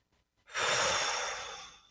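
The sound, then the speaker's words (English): A single deep breath in during a guided breathing exercise: a soft, airy rush of breath that swells quickly, holds steady for over a second, then eases off, heard alone without talk. “Take a breath. In through the top of your head”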